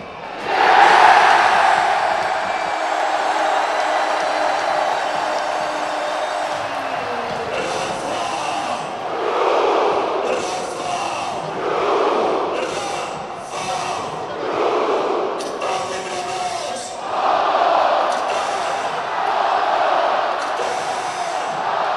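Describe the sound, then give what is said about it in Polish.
A football crowd at Arena Lublin roars after Motor Lublin's late winning penalty goal against Zagłębie Sosnowiec. The loud, sustained mass of voices surges and swells in waves. “Tak, lubelska publiczność fetowała trzecią zwycięską bramkę w spotkaniu przeciwko ekipie z Sosnowca.”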